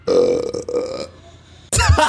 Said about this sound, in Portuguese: Ela baixou um som ai, de arroto.